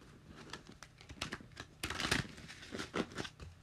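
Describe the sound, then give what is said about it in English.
Tarot cards are handled and shuffled, giving many soft papery flicks, riffles and crinkly snaps in an uneven, quick rhythm. The sound is faint and close, with no talking. “All right, so I'm just getting my cards ready, guys.”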